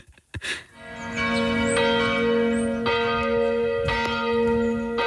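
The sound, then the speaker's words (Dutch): Church bells ring in a series of strong strikes. Each strike leaves a long, rich tone that hangs on and overlaps the next, forming steady resonant pealing without any voices. “Het geluid van jouw jeugd. Ja. De kerkklokken. Kerkklok.”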